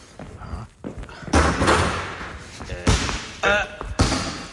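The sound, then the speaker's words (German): A basketball is bounced hard during training for an upcoming game, giving several heavy, booming thuds at uneven intervals, each with a short ringing decay. “Hey, aber das ist ja genau das Geräusch, was wir im Bett gehört haben. Ja, das warst du mit dem Ball.”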